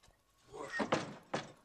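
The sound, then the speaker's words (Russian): A barred door is opened as someone enters a building, giving a few soft clunks and scraping thuds spread over under two seconds, fairly faint. “Подходит к зданию с решетчатой дверью. Заходит внутрь.”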